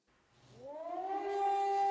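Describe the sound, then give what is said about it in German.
Air raid siren sounding north of Tel Aviv: a wailing tone that rises in pitch and swells from quiet to loud, then holds a steady high howl with clear harmonics, heard alone without talk. “Sirenenalarm nördlich von Tel Aviv.”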